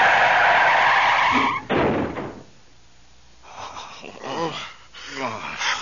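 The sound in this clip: A car skids out of control: a loud, sustained tyre screech is followed by a short harsh burst like an impact, then quieter voices talking.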